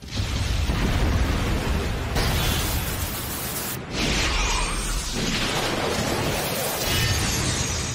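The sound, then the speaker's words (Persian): Spinning tops explode across a stadium as a dense, sustained roar of blasting noise. It is loud and continuous, with one brief dip near the middle. “انفجار و بازم انفجار. چه منظره خیره کننده ای. همه ی فرفرهای توی استادیوم منفجر شدن به جز ریوار فینیکس”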